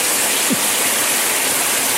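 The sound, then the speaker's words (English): Water runs steadily from a tap, some of it hot, making a constant, even hiss with no pauses. “Just grab the tap there. That one. My mistake. That. Yeah, and not too much hot water, please.”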